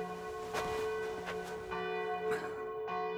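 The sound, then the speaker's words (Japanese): A church bell tolls the hour of twelve o'clock with several resonant strikes. A long ringing hum carries between them, and no voices are heard. “12時の鐘ですね。”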